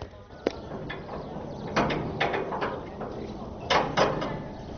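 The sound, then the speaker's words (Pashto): A prison door is opened with a series of clanks and mechanical rattles. Several sharp knocks stand out over a low, continuous background. “زابطه دروازه خلاصه کړه.”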